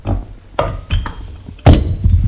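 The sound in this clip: A beer bottle and a glass clink as a drink is served: three sharp glassy knocks with a short ringing tone after the second, over low thuds of handling.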